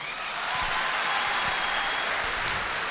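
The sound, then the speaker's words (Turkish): Audience applause fills the whole clip, a dense and even wash of many hands clapping at steady loudness with no clear breaks or peaks. “Ama o gösterdiğiniz ilgi, o gösterdiğiniz tezahürat benim 24 senelik sanat hayatımda aldığım en önemli alkış diyebilirim.”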